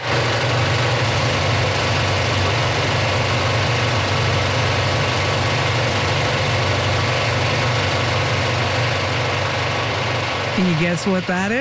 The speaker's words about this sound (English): Yes, we're not resurfacing the pavement here. It's the sound of the IMAX film projector working at Cineplex's Scotiabank Theatre in Halifax.